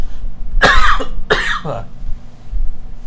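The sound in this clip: Two rough, loud coughs from a very scratchy throat follow in quick succession, with a steady low hum underneath.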